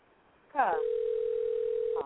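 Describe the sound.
A telephone switchboard tone: a short sweeping warble leads into one long, steady, even tone that holds for over a second, then cuts off with a brief burst.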